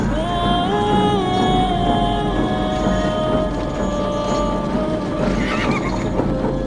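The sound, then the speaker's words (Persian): Horses whinny and neigh loudly over a steady clatter of hooves as armed soldiers ride around a caravan of prisoners, making their mounts prance. The shrill, wavering neighs repeat across a continuous, dense hoofbeat bed. “و دور تا دور کاروان اسیران سربازان مسلح سوار بر اسب سرخوش از پیروزی اسبهای خود را به رقص در می آوردند و رجز می خواندند.”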